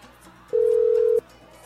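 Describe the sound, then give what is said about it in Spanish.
A single steady telephone tone sounds once for about two-thirds of a second, clear and mid-pitched above a faint background hum, with no speech. “vamos a marcar ya por aquí. Marcamos, marcamos, marcamos, marcamos.”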